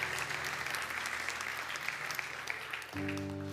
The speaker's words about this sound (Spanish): Porque le damos una ofrenda de palmas todos juntos.